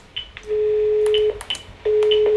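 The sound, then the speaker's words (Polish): Electronic beeps and tones from a FritzFon handset dialing star 606: several short high key beeps, then two long, steady mid-pitched tones separated by a brief gap. “Gwiazdka 606. Może tutaj zadzwonię.”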